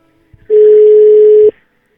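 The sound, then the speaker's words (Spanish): Ringback tone of an outgoing phone call: one steady, loud, mid-pitched tone lasting about a second, with silence before and after. “A ver si nos contesta. A ver si nos contesta. Mandamos saludos a Eli. Contesta, Petra.”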